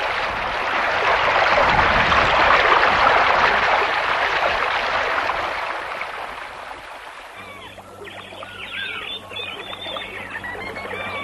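A waterfall flows with a broad, steady rushing roar that stays loud for about six seconds. It then fades to a softer, thinner wash, and no talk is heard.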